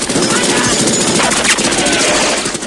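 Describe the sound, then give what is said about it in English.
Dense, rapid gunfire as a gunner rakes a boat with bullets in an action movie battle scene. The shots blur into one loud, continuous burst of crackling impacts. “A gunner peppers Kin's boat with bullets.”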